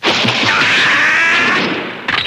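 A loud opening sound effect for a show segment featuring Otani and Nagashima batting, a dense, roaring, whooshing rush that holds for about two seconds, fades slightly, then ends with a fresh burst.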